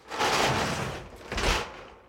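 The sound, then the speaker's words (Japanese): A bathroom door being opened, heard as two broad rushing surges, the second with a soft low thump. The sounds are moderately quiet, with no talking. “ドア開けますよ。”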